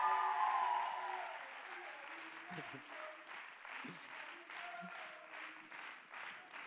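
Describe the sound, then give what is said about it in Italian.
Audience applause at a gathering, a dense, continuous wash of clapping that starts loudest and settles to a steady level throughout. “E a mamma non lo vogliamo fare un applauso?”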